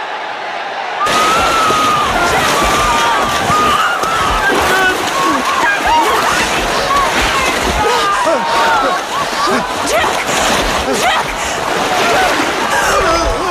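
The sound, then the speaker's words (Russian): Churning water from a crowd of drowning people thrashing with their arms, a dense, continuous splashing that runs loud throughout, with many voices crying out over it. “В кадре толпа тонущих людей, взбивающих руками в пену черную воду.”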